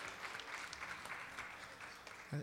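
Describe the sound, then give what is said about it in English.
A church audience applauds as a hand clap of praise to the Lord. The clapping is faint, dense and steady, with many hands sustained throughout. “Let's give the Lord another hand clap of praise. Hallelujah.”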